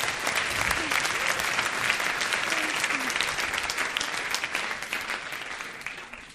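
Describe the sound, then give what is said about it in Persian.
An audience gives a warm round of applause, dense and steady clapping that slowly thins and fades toward the end. “یه دست برای خودتون بزنید.”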